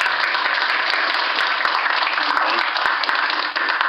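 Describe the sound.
Audience applause welcomes a speaker onto the stage at a MicroConf business conference: dense, steady, loud clapping from many hands that continues without a break.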